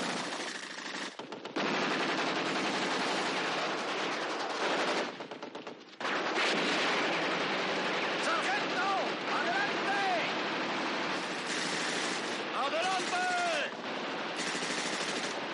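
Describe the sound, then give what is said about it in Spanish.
Bursts of machine-gun fire from a 1970 World War II war film battle scene, mostly continuous and harsh with short breaks near the start and in the middle, and a voice speaking over parts of it. “A la vez, Grand Joe sigue lanzando granadas y el resto de compañeros disparan sin piedad con sus metralletas, arrasando con todo cuanto tienen delante.”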